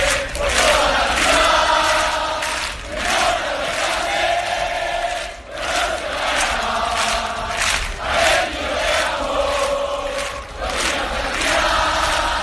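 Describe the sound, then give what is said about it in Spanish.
Atlético de Madrid football fans chant loudly outside the team hotel as they welcome the squad, a dense crowd roar that swells and drops in rhythmic waves throughout. “Este es el sonido de la afición del Atlético de Madrid ayer en el recibimiento al equipo en el hotel de concentración.”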